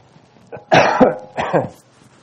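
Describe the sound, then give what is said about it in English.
Coughing during a sermon: a short series of harsh, loud coughs in a quick cluster, with a small catch at the start, heard alone without speech. “I don't want to cough on you guys.”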